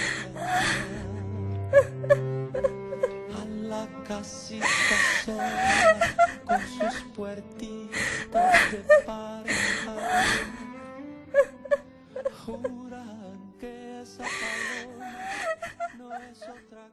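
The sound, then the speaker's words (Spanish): A woman cries and wails in a Spanish-language radio drama, with irregular sobbing bursts, gasps and wavering moans over a low background. “La pobre no para de llorar.”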